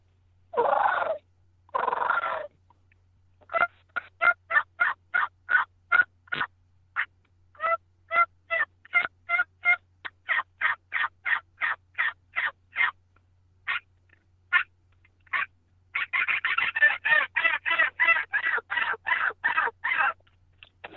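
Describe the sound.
A small-frame diaphragm turkey call blown to imitate a turkey: two drawn-out yelps, then many short, sharp, evenly paced notes, building to a rapid, dense run of calls at the end.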